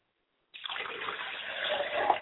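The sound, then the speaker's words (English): Water poured from a glass as a libation offering: after a brief silence, a steady splashing, trickling stream begins and carries on to the end, growing slightly louder near the close, with no voices. “I pour a glass of water to my mother”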